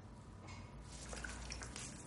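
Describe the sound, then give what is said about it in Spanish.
Soft splashing and dripping water as a razor blade is rinsed at a washbasin, a brief, faint liquid patter. “Ella aclara la cuchilla y se la devuelve.”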